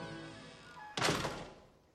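A door slammed shut in a dim basement lands as one heavy thud about halfway through. Its broad crash fades away over the following second.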